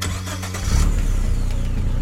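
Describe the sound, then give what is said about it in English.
A Toyota Camry hybrid engine starting: a quiet hum gives way, about two-thirds of a second in, to a louder low engine rumble that then holds steady. “Toyota hybrid. Toyota. The Toyota Camry hybrid.”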